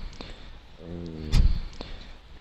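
A freezer door shuts with one heavy, dull thump, loud against a low steady background hum.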